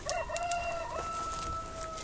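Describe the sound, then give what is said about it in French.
A rooster crows in one long, drawn-out call of high, sustained tones. The crow is fairly faint and there are no voices. “Jusqu'au chant du coq.”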